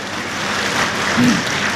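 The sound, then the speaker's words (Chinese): Sparse, scattered applause comes from the audience at a live crosstalk comedy show. It forms a thin, steady wash of claps at moderate loudness with no voices over it. “谢谢现场所有热情的观众，谢谢您这么稀稀拉拉的掌声，谢谢大家。”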